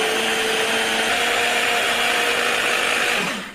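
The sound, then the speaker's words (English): A food processor blitzes slightly cooled cooked livers into a purée, giving a loud, steady whirring motor roar that holds constant and then winds down at the very end. “I've just let it cool a little bit so it's not red hot going into my food processor. And I'm going to blitz it up.”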